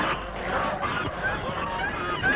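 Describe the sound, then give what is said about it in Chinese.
A flock of white geese honks as a bicycle rides into them on a small path, giving a dense, overlapping run of nasal honks at moderate loudness. “终于冲进了鹅群，从车上摔了下来。”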